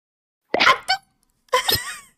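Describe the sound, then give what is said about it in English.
A person's voice imitates their own sneeze with a few short, sharp, breathy bursts: a quick pair first, then a longer burst after a brief pause. “And then when I sneeze, it's like,”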